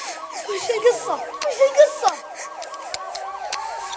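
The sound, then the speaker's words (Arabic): A police siren wails in rapid, repeated rising-and-falling sweeps, steady and fairly loud throughout, with some scattered sharper noises over it. “صوت شرطة.”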